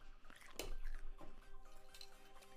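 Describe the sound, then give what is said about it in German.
Crunchy chewing of homemade caramel popcorn, with a few crisp, loud bites and softer munching between them and a faint steady tone underneath. “Und drinnen sind selbstgemachte Karamellpopcorn. Kosten wir jetzt mal.”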